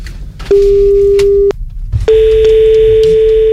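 A telephone ringback tone sounds during an outgoing call: two long, steady electronic tones separated by a pause. The second tone runs to the end, over faint background noise.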